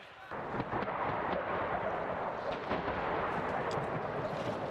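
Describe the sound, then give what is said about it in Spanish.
Artillery fire in the Ukrainian city of Kherson, a continuous heavy rumbling roar with overlapping booms and no clear pause, while a voice talks over it. “Eso viene hacia aquí. Aproximadamente en la última hora en que hemos estado aquí en Jersón, ha habido artillería constante en ambas direcciones.”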